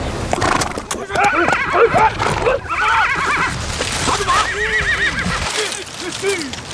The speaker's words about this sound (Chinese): 根据现场的情况分析来看，很有可能是中国的张北马。